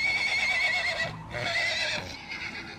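Small horses neigh restlessly, giving a few drawn-out, shrill, quavering whinnies one after another with only brief gaps, the last one weaker.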